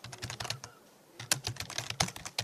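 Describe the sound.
Rapid typing on a computer keyboard: many sharp, crisp keystroke clicks in quick uneven bursts, with a brief pause midway before the clatter resumes. No voices.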